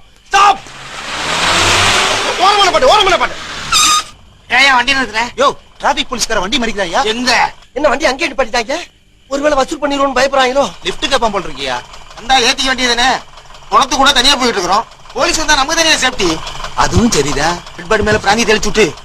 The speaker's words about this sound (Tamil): வண்டி வருது, இதை காட்டி பாடி